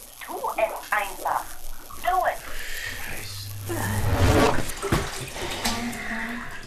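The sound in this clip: Water splashing and sloshing as a radio is pulled out of water in an audio drama. Wet, gurgling surges mix with voices talking over them.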